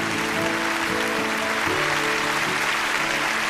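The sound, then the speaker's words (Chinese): An audience gives sustained applause to an academician, an agricultural scientist, as a loud, unbroken wash of clapping. Steady low tones hum underneath it. “把掌声送给傅院士，”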